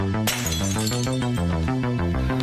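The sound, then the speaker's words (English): Light bulb smashed with a log in a basement: one sharp, glassy crash near the start, followed by a steady tonal musical backing that carries on to the end. “Aaron grabs a log in the basement and smashes a light bulb.”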